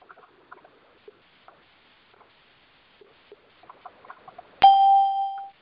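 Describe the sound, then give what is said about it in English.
A single clear electronic beep sounds near the end, ringing briefly before cutting off. Faint, scattered ticks and taps come before it. “I heard a beep. Well, that sounded weird.”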